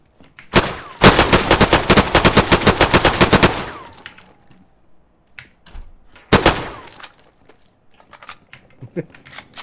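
Automatic AK assault rifle fire in a video game opens with a single sharp shot, then a long, loud volley of many rapid cracks. A quieter stretch of scattered clicks and thumps follows, broken by a second short burst.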